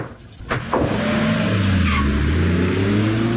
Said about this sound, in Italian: Il guidatore accelera in modo brusco, poi si allontana ad alta velocità.